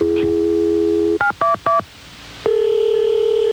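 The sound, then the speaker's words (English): Telephone keypad tones sound as the emergency number 911 is dialed: a steady tone, then three short, evenly spaced dialing beeps, then a long steady tone. “We all hope we'll never have to dial the emergency number 911.”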